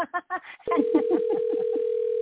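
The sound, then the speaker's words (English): A steady telephone dial tone sets in after a moment and holds unbroken to the end, one even mid-pitched hum with a voice talking over it. “So let me go ahead and dial him through.”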